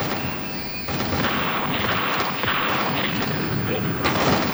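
Rifle volley fired at bandits near a wooden fort: a loud, dense crackling burst of gunfire starts just under a second in and keeps up to the end, noisy and rumbling without clearly separate shots.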